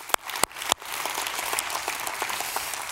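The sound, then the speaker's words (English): A church audience in London applauds. A few sharp, separate claps come first, then steady, dense clapping continues evenly at a fairly soft level. “Let's put our hands together and welcome everybody joining in today.”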